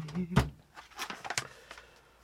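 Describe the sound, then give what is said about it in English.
A chair sliding across the floor: a few short, faint scraping and bumping bursts, with the clearest near the start. “Sorry for the sliding of the chair, for those of you that are listening.”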